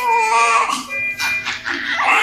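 A newborn baby girl cries in a maternity clinic just after her natural birth. The cries are high and wavering, broken by a few short catches of breath, and stay fairly loud throughout with no talk over them.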